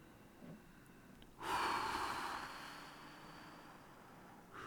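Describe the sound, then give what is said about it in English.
A person taking a deep breath: one long, airy breath that swells suddenly, then slowly fades. The sound is faint and heard alone, and a softer breath begins at the very end. “Now, I want you to take a few deep breaths for me.”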